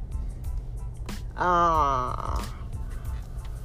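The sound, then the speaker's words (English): A person yawns once: a short, drawn-out voiced yawn lasting about half a second, rising out of a quiet, noisy background with faint clicks around it. “I don't know why I'm yawning.”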